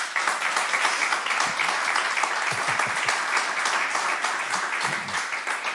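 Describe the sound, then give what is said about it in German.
An audience applauds to vote for a recording: steady, even clapping from many hands holds at a moderate level without a break. “Ich rufe auf, Sie applaudieren oder eben nicht.”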